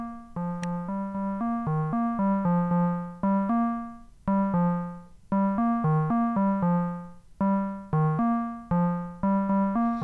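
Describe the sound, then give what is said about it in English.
Synthesizer sequencer cycling an 8-note sequence, with odd note-probability settings making some steps drop out. Bright, plucky tones with sharp attacks and quick decays repeat in an uneven rhythm, with small gaps where notes are skipped. “The sequencer is playing an 8-note sequence. It sounds like this.”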